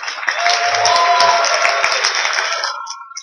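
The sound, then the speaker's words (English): Applause and cheering from a conference audience of developers: a dense, loud wash of clapping mixed with raised voices that holds steady for about three seconds, then thins out at the end. “let's hear some applause”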